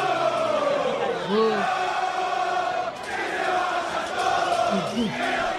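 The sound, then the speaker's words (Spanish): San Lorenzo football fans chant and shout after their 3-0 away defeat to Defensa y Justicia in Varela. A mass of voices roars in rough unison, with a brief dip in volume midway before the crowd surges again. “Si te parece, escuchamos un poquitito a los hinchas de San Lorenzo después del partido con Defensa.”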